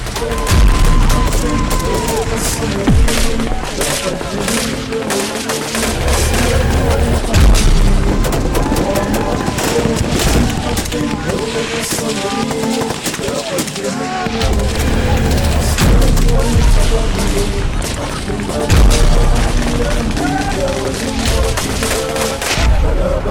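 An attack scene in a war film, with shoulder-fired guns and heavy gunfire. Dense, continuous volleys of sharp cracks and deep booms carry loudly through the whole stretch.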